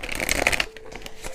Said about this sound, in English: I didn't pick a card yet, so we're going to pick a card. I'm going to use the Rebel Oracle deck.